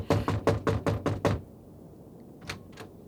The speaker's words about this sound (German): Sie kommen und schlagen fast meine Tür ein.